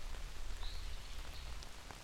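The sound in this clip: Steady rain falling, a dense constant hiss with scattered soft drop taps throughout, unchanging in level, with no voices.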